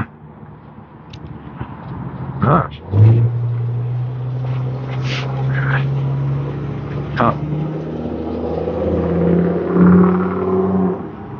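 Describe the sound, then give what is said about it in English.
Cars drive past on a road as a continuous engine rumble that swells and eases with each pass, while a person talks over it. “there's cars that go by. They're a little irritating.”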